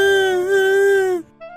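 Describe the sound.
A girl cries in a long, high, sustained wail that holds steady and then breaks off abruptly, followed by a short, fainter whimper.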